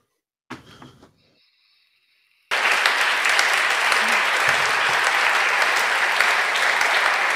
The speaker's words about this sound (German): Und alle klatschen.